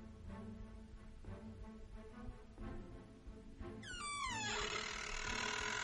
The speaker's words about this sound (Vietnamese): Cánh cửa vang lên âm thanh cọt kẹt, giận người.